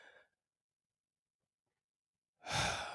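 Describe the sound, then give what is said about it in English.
A deep breath drawn in, heard as a loud, breathy inhale that follows near silence, with a short, faint breath at the very start. “Take a deep breath right now. Right now, wherever you are, take a deep breath. Breathe in.”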